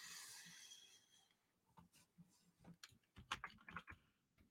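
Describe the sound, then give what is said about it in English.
Faint, irregular clicks of typing on a computer keyboard: scattered keystrokes with short pauses, ending in a denser burst of taps, with no talk over them. “Got to type quick because we're running out of time.”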